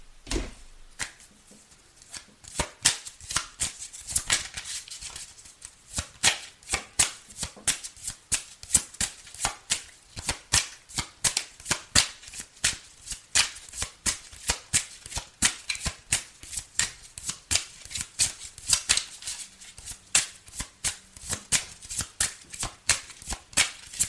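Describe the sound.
Playing cards are shuffled during a card trick, a long run of many crisp, rapid clicks and flutters in a fairly steady rhythm, with no talk over them.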